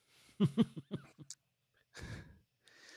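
A person yawning: a few short voiced sounds come first, then a breathy, drawn-out exhale like a sigh, fairly faint overall.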